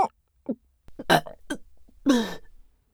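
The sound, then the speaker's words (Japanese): A loud burp from a young woman: a few short guttural bursts, then a longer, louder rasping belch near the end. “画面揺れちゃうくらいの爆音ゲップでした”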